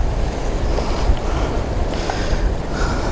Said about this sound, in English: Oh, the wind just nearly blew my camera into the sea.